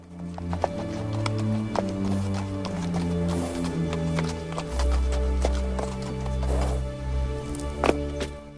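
Hooves clip-clop as a horse is ridden along a path past manicured lawns. The footfalls are many and evenly paced, moderately loud, with a few sharper strikes standing out.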